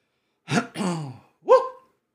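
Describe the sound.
Someone with allergies clears their throat in three short, rough, voiced bursts, the last one higher-pitched, against quiet in between.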